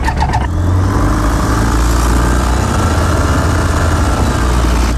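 A light aircraft's engine starts for a pre-flight run-up: a brief sharp catch at the very start, then a loud, steady, rumbling drone that holds unchanged for about five seconds, with no voices.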